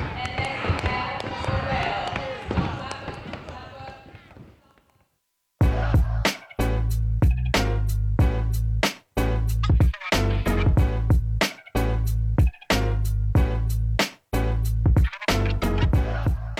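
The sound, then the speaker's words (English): Rhythmic stomps and claps of an animal-inspired drumbeat by the Synergy Step group and a workshop team in Bethel, loud, heavy repeated hits in a steady pattern with short breaks, following a stretch of murmured talk. “In a flurry of animal-inspired stomps, claps, and growls, a drumbeat of Synergy Step and the workshop team's own making fills the room.”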